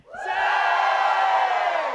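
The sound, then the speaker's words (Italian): A church audience shouts for joy together on cue: a loud, sustained cry of many voices that swells in quickly and holds steady for nearly two seconds. “Mandate grida di gioia. 1, 2, 3.”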